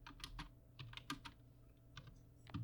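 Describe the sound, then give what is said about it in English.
Typing on a computer keyboard produces many quick, irregular keystroke clicks, faint and steady with short pauses between bursts. “I can't type and talk at the same time.”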